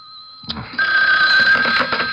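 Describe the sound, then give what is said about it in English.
A telephone rings with a loud, bright, continuous bell-like trill that starts abruptly after faint steady tones and sustains to the end, with no talking. “you'd better answer the phone.”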